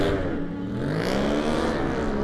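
Engine of an Aprilia sport bike pulling away from the start line in a road race, a loud, harmonically rich motor tone held fairly steady as the machine gets away.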